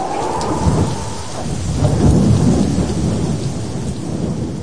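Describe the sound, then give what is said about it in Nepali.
A thunderstorm with heavy rain: a loud, steady hiss of rain on surfaces runs throughout, with deep rolling rumbles of thunder swelling beneath it. “जब पानी पर्यो र बाढी आयो अनि हुरी चल्यो र त्यस घरमाथि बजारियो”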